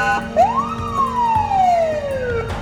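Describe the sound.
Ambulance siren wailing loudly in one sweep that rises quickly in pitch, then falls slowly, over a low rumble of traffic.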